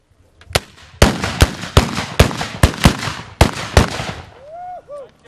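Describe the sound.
Ceremonial black-powder salute guns, hand-held Böller, fire a rapid volley of about nine sharp, loud bangs at uneven intervals, each with a brief rumbling tail, followed by a short, faint whistling sound.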